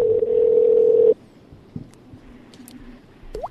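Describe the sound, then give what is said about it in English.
A telephone line tone on a call that would not connect: one steady, mid-pitched tone holds for about a second and then cuts off, leaving only faint background noise and a few small clicks. “His phone worked last night. Hi, Carlito in the chat room. It's just busy. We'll try it again.”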